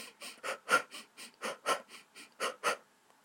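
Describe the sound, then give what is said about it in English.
A runner's rhythmic breathing is demonstrated by a voice, inhaling over two steps and exhaling over two. Many short, even breath bursts follow one another in a steady, unbroken rhythm with no talk over them. “Breathe in on 2 steps, breathe out on 2 steps. So it goes like this.”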